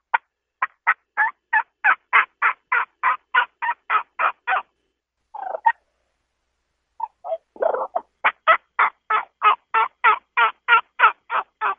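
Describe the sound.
A human voice imitates turkey hen calls using only the vocal cords, producing long runs of evenly spaced, raspy yelps. A brief break of a few irregular, lower clucks falls between the two steady series.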